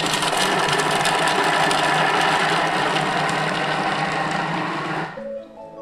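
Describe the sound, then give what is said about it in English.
A kitchen blender set to speed 5 runs for about five seconds, chopping its contents with a loud, steady motor whir that stops abruptly near the end. “let's blend this then. What do I need to do? So 5 seconds, and then we're going to turn the dial to speed 5. So you turn it once and it closes the lid. Okay. And then up to speed 5.”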